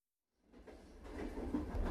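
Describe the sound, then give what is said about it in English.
A train riding on the rails. A low rumbling clatter fades in from silence and grows steadily louder, and a brighter rushing layer joins partway through. “You're riding the rails with Conductor Joe. We're making our way through London. All aboard!”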